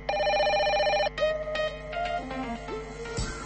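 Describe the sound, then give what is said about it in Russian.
A telephone rings for an incoming call: a loud, steady, warbling electronic ring for about a second, followed by a run of brighter electronic tones and chiming blips, with no voices. “Наступное телефонование на адрес оппозиции.”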